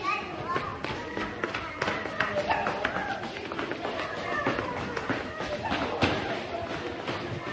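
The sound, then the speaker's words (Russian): A child's running footsteps in a hospital patter quickly as many rapid taps and light thumps in an uneven rhythm, with voices underneath throughout. “Побежал бегать.”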